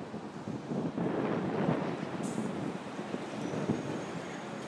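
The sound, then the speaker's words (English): Wind on a breezy morning buffets the microphone in a steady, low rumbling roar with slight gusts rising and easing, and no voices. “As you can hear, it's a bit of a breezy morning.”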